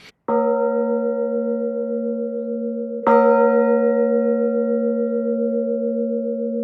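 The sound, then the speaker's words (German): Two strikes on an out-of-tune baroque signal bell cast in 1659. Each stroke rings on in a long, sustained hum with beating, unsteady partials that give a restless tone. “Wie wir hier zum Beispiel an dieser äußerlich sehr, sehr schönen Zeichenglocke aus dem Jahre 1659 hören können.”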